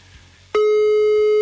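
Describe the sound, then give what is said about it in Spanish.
A telephone busy signal sounds while a call is being dialed: a faint low tone is followed by a sudden loud, steady, pure beep that holds for almost a second. “Estamos marcando a Elisua o Elisa.”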